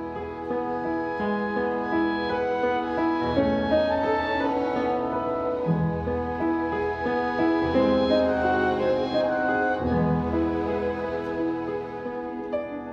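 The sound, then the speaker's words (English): Theme music from a 1945 film plays alone: sustained, layered tonal notes with a slowly shifting melody over steady low harmony, at an even, moderate level and with no voices. “One piece of music plays throughout the movie. You can hear it now in the background, but let me be quiet a moment so you can catch the theme.”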